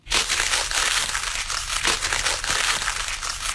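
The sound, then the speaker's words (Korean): Paper rustles and crinkles without pause, a dense, continuous crackle of repeated crumpling that stays steady and fairly loud throughout. “아, 이거는 같은 소리가 계속 반복이 되고 있는데 장작 타는 소리랑 정말 비슷합니다만 이 소리는 바로 종이 부스럭거리는 소리입니다.”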